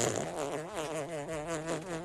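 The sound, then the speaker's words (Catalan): A fart sounds as a steady, buzzing, wavering drone lasting about two seconds, fairly faint, with a slightly fluttering pitch and no talk over it. “Saps com vull acabar aquesta secció? No ho sé. Amb un pet.”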